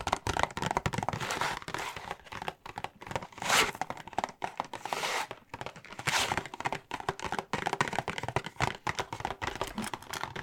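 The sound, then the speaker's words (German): Continuous crinkling, rustling and soft thumps of items being packed into a shopping bag at a supermarket checkout in an ASMR role-play, with no talk. “So, alles klar. Dann hätten wir alles eingepackt.”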